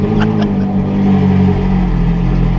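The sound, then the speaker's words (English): Ferrari 458 Italia engine starting up, heard as a loud, steady, throaty roar with a strong low growl that holds evenly throughout, with no talk over it. “That's a Ferrari 458 Italia starting up.”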